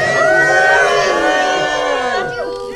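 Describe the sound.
Crowd cheering and whooping at a live event, a loud continuous roar of many voices with shrill whoops on top that holds steady for the whole stretch.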